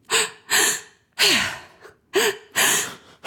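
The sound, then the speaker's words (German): Loud, rushing breaths through a wide-open mouth: a deep-breathing technique drawing air deep into the belly and chest and letting it out, close to crying or sighing. Several heavy breath bursts follow in a steady rhythm with short gaps between. “Du atmest so ganz tief ein in den Bauch und in den Brustkorb und lässt die Luft dann wieder so raus. Das hört sich ungefähr so an.”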